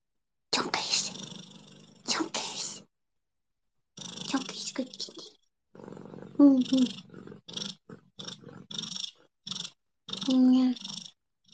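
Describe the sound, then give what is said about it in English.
A cat purrs in several soft, breathy stretches broken by short pauses. The purring is fairly faint and uneven, with a few brief tonal bits mixed in. “Meow. Meow. Who's a good kitty? Who's a good kitty?”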